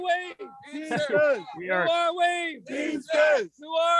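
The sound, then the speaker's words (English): Loud crowd chanting in call-and-response at a live picket line of Teamsters union workers out in the rain: shouted questions answered by a unison shout, repeated in a steady rhythm of forceful, ragged voices. “that your commotion you're hearing in the background, that is the sound of a live picket line.”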